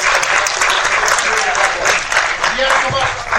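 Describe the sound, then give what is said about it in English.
Applause from an audience at an event honouring two winners: dense, steady clapping that stays loud for the whole stretch, with voices mixed in among the claps. “Please give a round of applause for Zai and Justin.”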